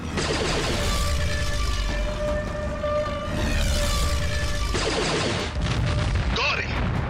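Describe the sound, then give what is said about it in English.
Spaceship gun turret fire from a Star Wars audio drama: heavy blasts and booming bursts over a dense, continuous roar, with a sustained siren-like whine running through most of it. “Are you gonna hit something back there or what? Fly better. Shoot better. I can only turn this gun so far.”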